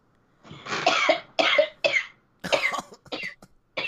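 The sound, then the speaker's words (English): Harsh coughing from a person with something caught in the throat: several loud, rough bursts in quick succession with short gaps, and no talk over them. “That's a legitimate cough.”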